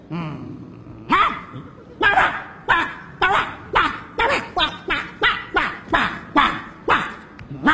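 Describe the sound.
A man barks like a dog, a long series of loud, evenly spaced woofs with a steady, rhythmic beat, in a comic sitcom scene about a security guard confronting a dog.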